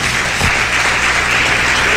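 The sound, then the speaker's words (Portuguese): A church audience claps its hands during a worship service. The clapping is loud, dense and continuous, holding steady from start to finish. “Pode bater mais forte essas palmas que Jesus merece. Mais forte, mais avivada.”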